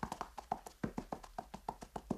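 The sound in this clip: Hoofbeats of a saddled horse galloping between trees at dawn: a fast, even run of many soft, faint thuds with no voices.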